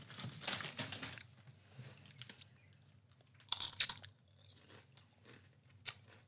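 Crunching on a cheesy chip: a few crisp, dry crunch bursts and softer chewing between them, with one especially sharp, loud crunch in the middle and a last brief snap near the end, all without talk.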